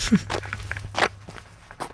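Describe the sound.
Footsteps of people walking beside a lake at Ulefoss, a few soft, irregular steps over a low steady hum.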